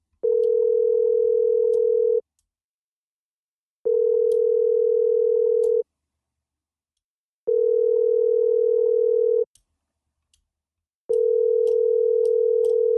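A phone rings out while someone calls people: four identical steady tones at one pitch, each about two seconds long and separated by pauses of about a second and a half.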